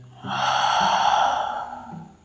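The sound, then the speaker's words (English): One long, deep breath stands alone. It is a loud, airy rush that swells quickly and then gradually fades away. “Take a deep breath. Breathe out.”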